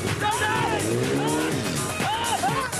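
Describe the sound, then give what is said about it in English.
A big, heavy Jeep with a freshly fixed carburettor drives hard, its engine pitch swinging up and down as it revs and handles, while a voice talks over the steady engine noise. “It might be big and heavy, but that jaunty Jeep handles beautifully.”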